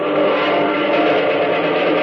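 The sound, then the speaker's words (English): Engine drone from a large formation of American pursuit planes flying overhead during a bombing attack, a steady, loud, unbroken roar with a slight wavering throb and no voices. “Coming out of that bank of clouds up there behind them. Planes! Jumping! Jupiter, do those look like... They are, son. American pursuit planes. A whole mess of them.”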